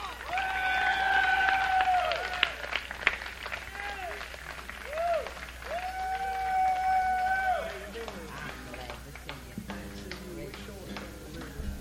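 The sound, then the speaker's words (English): Audience applause welcoming a band onto the stage: steady clapping that fills the whole stretch, with voices and cheers mixed in. “Let's clap them onto the stage.”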